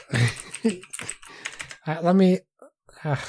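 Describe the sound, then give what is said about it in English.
Computer keyboard typing, quick irregular key clicks heard under a person talking over them. “If you just type, it's fine. If you don't talk, but when you talk and type, then there's not much I can do.”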